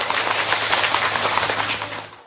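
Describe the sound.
Audience applause rings out at a ceremony to welcome guests, including local Party committee officials, People's Council members and village heads: dense, steady clapping that holds at an even level and then begins to fade.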